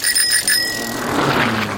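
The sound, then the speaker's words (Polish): A bicycle bell rings in a quick burst of several bright strikes, then a single ring lingers and fades. “To jest dźwięk dzwonka przy rowerze.”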